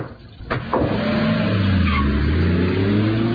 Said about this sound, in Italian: Il guidatore accelera in modo brusco, poi si allontana ad alta velocità.